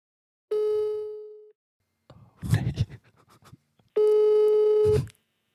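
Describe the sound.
Ringback tone on an outgoing phone call: two steady, low-pitched tones of about a second each, with a short burst of rustling, handling-like noise between them and no talk.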